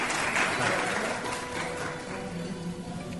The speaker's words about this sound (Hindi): करतल ध्वनियों से आप सभी इसमें अपनी सहभागिता निभाएं।